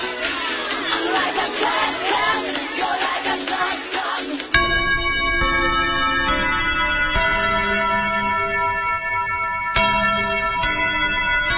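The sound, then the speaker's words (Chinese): Church bells ring on Christmas Eve in Seoul, their long sustained metallic tones struck again several times, following a stretch of loud, cheering crowd noise. “一个小时后，韩国首尔平安夜的钟声正在敲响。”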